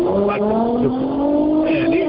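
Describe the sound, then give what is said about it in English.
Cars racing on the side of a freeway. Their engines give a loud, continuous whining drone whose pitch glides steadily upward as they rev. “There's too much noise in the background. Yeah, these guys is racing on the side of the freeway”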